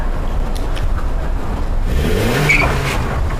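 A car engine revs loudly, a rough, sustained roar with a tone that climbs during the second half, with no voices over it.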